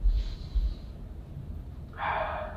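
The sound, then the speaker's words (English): A deep inhale, a soft breathy rush of air that fades, then returns as a brighter hiss near the end. “And inhale”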